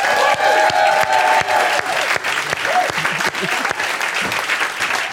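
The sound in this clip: Loud, dense audience applause welcoming politician Keir Starmer onto a show, steady clapping throughout with a few sharper, louder claps standing out.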